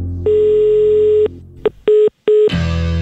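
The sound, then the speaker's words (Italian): A telephone is dialed to place a call. One long, loud electronic tone is followed by a few shorter beeps, and a burst of rough noise comes at the end. “Chiamiamo ancora.”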